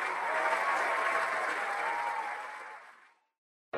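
Fans at a stage show cheer and applaud in a dense, steady wash of clapping that holds for about three seconds, then fades to silence before a brief cut.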